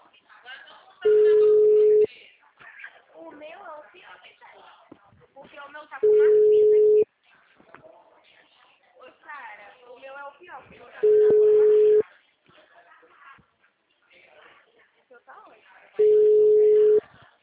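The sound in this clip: Four steady ringback tones sound while a telephone call is being placed. Each tone lasts about a second and they are evenly spaced, with people talking in between.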